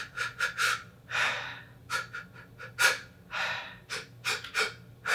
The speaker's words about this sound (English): take a few fast intakes of breath